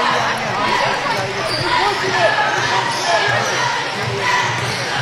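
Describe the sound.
A basketball is dribbled on a court during a game. Its bounces are muffled under steady crowd noise, with voices running throughout.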